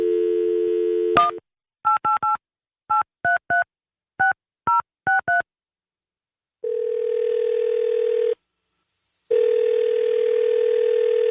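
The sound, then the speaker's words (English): A telephone call placed to a technology company: a steady dial tone and a click, then a quick run of keypad tones in small clusters, followed by two long ringing tones separated by a gap of silence. “Our Tom Danheiser called the technology company just moments ago to try to get someone to come on the air to talk. Well, this is what we got.”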